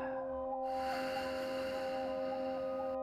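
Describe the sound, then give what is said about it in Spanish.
A slow, breathy exhale during a guided meditation lasts a few seconds over a soft, steady musical drone that holds beneath it throughout. “Sostén por un momento. Recuerda lo increíble que lo estás haciendo. Y exhala.”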